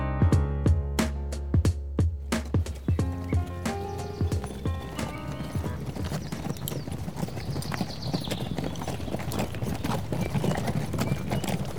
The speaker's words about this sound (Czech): Zapřáhnu povoz a vyrazím k té hoře.